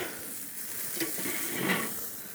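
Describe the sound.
Meat pieces sizzle in a frying pan as they cook, still pink and juicy inside. A steady, dense crackling hiss runs throughout, with no talk over it.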